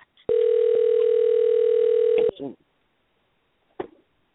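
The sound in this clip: A telephone dial tone sounds during an unanswered call: a steady, single-pitched electronic tone holds for about two seconds, then cuts off and is followed by brief snatches of a voice.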